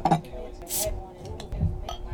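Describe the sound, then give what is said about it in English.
A beer is opened, giving a short, sharp hiss among light glassy clinks and taps, all faint, with quiet voices talking around it. “Well, maybe we should have some beer and talk about beer. Yeah, we definitely should. Yeah, let's crack something. All right. Start with Sunfish.”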